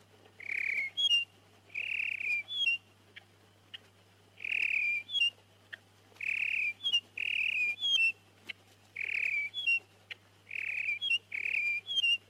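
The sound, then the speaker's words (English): A red-winged blackbird calls over and over in short whistled phrases, each a bright trill ending in a higher flourish. The calls are separated by brief gaps, and a steady low hum runs underneath throughout. “red-winged blackbird.”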